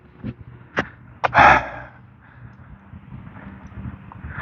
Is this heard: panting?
yes